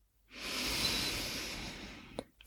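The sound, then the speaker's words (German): A slow inhale through the nose during a seated breathing exercise makes a soft, steady, airy hiss lasting about two seconds, followed by a couple of faint short clicks. “Setz dich einmal aufrecht hin, atme über die Nase ein”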